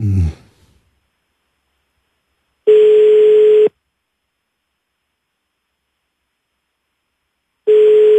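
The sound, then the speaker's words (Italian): Ringback tone of an outgoing telephone call: two steady, mid-pitched tones about one second long, spaced roughly five seconds apart with silence between them. “Vediamo se risponde Simona Bordonali”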